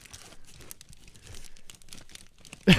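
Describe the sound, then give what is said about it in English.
Tin foil crinkling as beer-drinking hats wrapped in it are unwrapped, a faint, continuous rustle and crackle that ends in one louder burst of crinkling. “just pulled out fucking beer drinking hats wrapped in tin foil”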